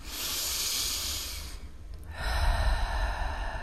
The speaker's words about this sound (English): placing your hands over your heart space if you would, taking some deep breaths.